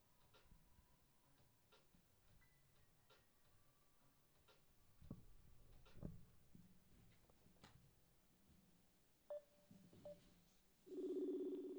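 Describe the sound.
A telephone call is dialled: quiet clicks and taps, then a brief pair of tones. A low, steady ringing tone starts near the end.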